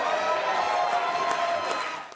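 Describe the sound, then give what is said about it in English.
Applause fills the Ohio House chamber as a bill passes, a steady, dense wash of clapping held at an even level before tapering off at the very end. “So Republican House Speaker Cliff Rosenberger let Coons take the gavel when the bill passed, to the applause of the chamber.”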